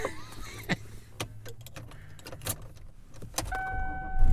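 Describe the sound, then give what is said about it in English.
Car driving, carried by a steady low engine and road rumble with a few sharp clicks and knocks over it, and no talk. “And I am driving home.”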